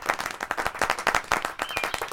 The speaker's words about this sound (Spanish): Bueno, parece que sí. Se puede aplaudir en un cementerio.